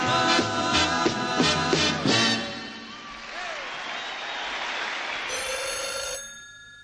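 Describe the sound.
A telephone bell rings in a rapid series of loud, repeated bursts, then gives way to a continuous noisy wash that runs to the end.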